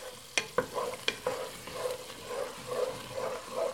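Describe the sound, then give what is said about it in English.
Food stirred in a hot pan as it cooks down into a sauce: a few sharp clatters and scrapes of the utensil early on, then a steady sizzle with soft, repeated stirring strokes. “Just gonna stir and cook that for a couple of minutes. Kind of let that develop into a bit of a sauce.”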